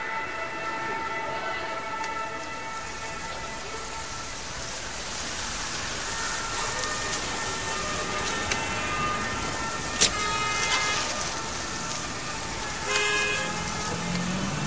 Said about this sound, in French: Je suis dans le trafic à Paris